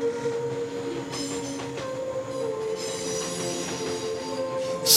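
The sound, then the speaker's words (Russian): A metro train pulls away after its doors close, with a steady rolling rumble laced with high, whining wheel squeals throughout and a loud hissing burst at the very end. “Осторожно, двери закрываются. Следующая станция – площадь Свердлова.”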